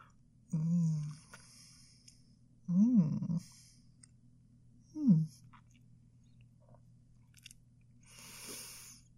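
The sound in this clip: Biting and chewing a chocolate with a gooey, melted-chocolate centre: a few quiet, separate chewing bursts, each carrying a soft voiced hum-like murmur, with a fainter final rustle.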